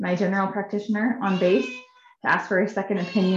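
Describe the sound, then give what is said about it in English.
Loud, insistent meowing from a four-month-old kitten, with repeated pitched cries that overlap continuous talking from a person and briefly stand out alone after a short pause. “At first I thought that Emily's baby was crying, or Rita's. And then I was like, wait, that is a cat. No, it's my 4-month-old kitten. She's just very loud.”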